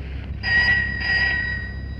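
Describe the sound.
A telephone rings in two short electronic bursts over a steady low hum. The rings are moderately loud and evenly spaced.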